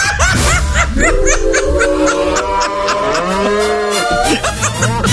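Cattle mooing: several loud, drawn-out, overlapping moos from a group of farm animals, some rising and falling in pitch.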